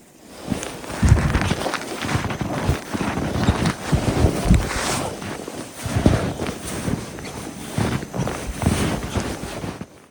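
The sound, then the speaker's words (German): Footsteps crunch through very cold, powder-dry snow in a steady run of many muffled, grainy steps, with wind noise rushing over the microphone throughout. “Durch die Kälte macht der Schnee übrigens ein ganz anderes Geräusch beim Gehen. Ich finde, man hört am Sound schon, dass dieser Schnee anders ist. Ich habe euch mal ein Beispiel mitgebracht, wie das klingt, wenn man durch diese Art von Schnee läuft.”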